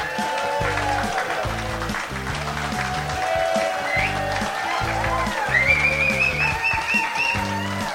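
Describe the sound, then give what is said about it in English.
Studio audience applause and cheers rise under a loud, upbeat music bed, with a bright whistle-like tone sliding upward partway through; the clapping stays steady and dense throughout. “We're the Real Estate Guys, and this is our studio audience.”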